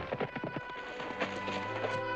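Hooves of a ridden horse strike a track in a quick, rhythmic run of clip-clops during the first second, then fade under a steady low hum.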